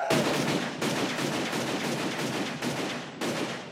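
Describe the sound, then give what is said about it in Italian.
Dense gunfire from a film shootout scene, loud and continuous rapid shots in a few sustained volleys separated by brief gaps, with no voices. “Ci sarà infatti una sparatoria. Loro due ironicamente verranno mancati dai colpi sparatigli, ma faranno fuori tutti i presenti tranne uno.”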